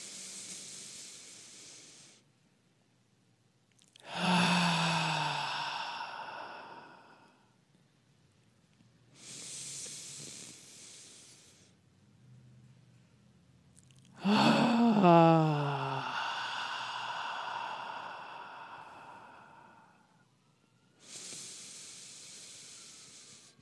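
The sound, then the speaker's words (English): Deep breaths drawn in through the nose alternate with loud, sighing exhales during a guided breathing exercise. Hissy intakes and voiced, groaning releases repeat over a few slow cycles, with quiet gaps between them and no talking. “take in three beautiful big breaths in through the nose, hold for the count of two, and release noisily and audibly.”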